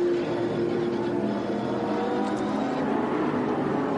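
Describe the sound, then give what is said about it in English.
A race car engine heard on board during a race, with the throttle hesitating. The engine drones loud and continuous, with no talk. “You could just hear the hesitation in the throttle.”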